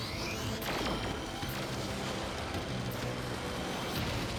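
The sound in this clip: An energy blast attack from the Power Rangers Ultrazord, formed from the T-Rex, Moza and Terrazords and running on unstable power, roars as a loud, continuous wall of noise with a few sharp crashing bursts throughout.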